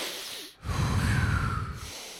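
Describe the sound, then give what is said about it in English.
A voice imitates heavy breathing while running a marathon: after a brief silence comes one long, loud, rasping breath. “But then I got really self-conscious about my breathing. Also, what way were you breathing? I was like going,”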